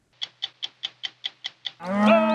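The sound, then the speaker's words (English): A cow moos during a spring cattle drive on a Wyoming ranch route. Eight sharp, evenly spaced clicking pulses come first, then one short, loud, harmonic low moo. “Cattle ranchers in Wyoming who every spring push thousands of cows along the same 70-mile route their ancestors pioneered 125 years ago.”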